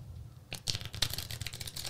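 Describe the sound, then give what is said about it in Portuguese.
A deck of playing cards gets an American-style riffle shuffle, heard as a soft, rapid flutter of dense clicks starting after a quiet moment. “a gente tá falando sobre embaralhamento, né? Brasileiro normalmente tem essa maneira de embaralhar, tem essa daqui também. É. Brasileiro normalmente embaralha assim. Americano faz daquele jeito lá, que é mais assim, ó.”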